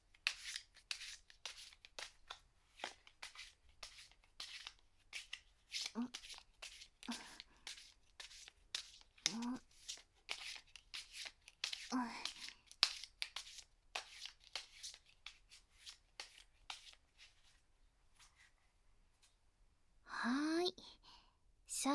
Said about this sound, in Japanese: これくらいにしてっと。続けてカードを触ってみたり、